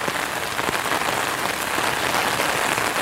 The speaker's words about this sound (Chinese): 在这大雨天的时候爬山哦，下雨了不能爬山，我还是决定去爬一爬